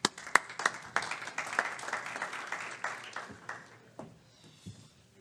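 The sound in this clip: Lukewarm audience applause greets a speaker welcomed to the podium late in the day at a law event: a brief burst of many scattered claps that thins out and fades to a few stray claps by the end.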